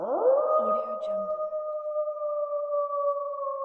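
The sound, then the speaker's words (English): Wolf howl: one long, loud call that climbs quickly at the start and then holds a steady, smooth pitch to the end, heard alone. “could I hear that wolf call one more time?”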